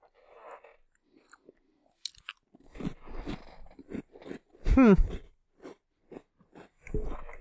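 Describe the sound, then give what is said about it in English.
Crunchy chewing of a plain cracker, with quiet, irregular bites and crisp crunches and a louder burst of crunching partway through, with no voices. “This tastes like to me? Nothing. It is a very plain cracker.”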